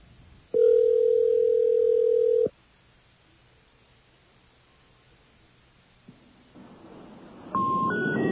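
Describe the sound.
Telephone line sounds while dialing a regular number: a steady dial tone holds for about two seconds, then drops to quiet line hiss, with a faint click and a short higher tone near the end.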